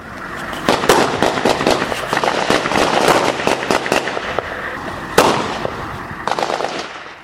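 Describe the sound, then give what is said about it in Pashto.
Gunfire from militants and others around an Afghan forces post set in a civilian house in a conflict area: many sharp, loud cracks in rapid, irregular bursts, nearly continuous and with no talking. “دلته هر څوک چې وغواړي ډزې کولی سي، ټول مرمۍ وروي.”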